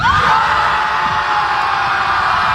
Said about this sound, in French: C'est comme la foule pour les Beatles. Ouais, c'est une reprise, effectivement, de l'époque de Elvis et des Beatles. C'est le Ed Sullivan Show.